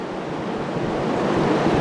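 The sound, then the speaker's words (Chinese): A tidal bore surges toward a dam embankment, a broad, steady rushing roar of churning water that swells slightly louder over the short stretch, with no voices. “那此时此刻我们可以看到潮水依然是保持着万马奔腾的气势，在逐渐地向我们的坝身推进。”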